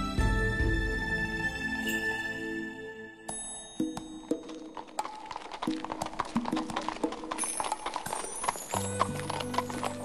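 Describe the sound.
Hooves of a horse-drawn carriage clip-clopping in an uneven rhythm, with bright bell jingles scattered among them. The hoofbeats follow a passage of sustained music at the start, and tonal music returns near the end.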